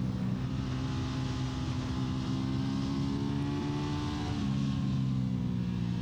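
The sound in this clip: Motorcycle engine with a strong induction sound, droning loud and continuous with rich low harmonics, then easing slightly lower in pitch as it revs down near the end.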